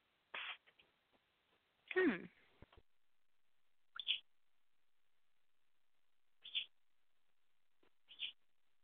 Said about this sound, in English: Hey, Pony Birds, no screaming. No screaming, gentlemen. You've been so good. Come on.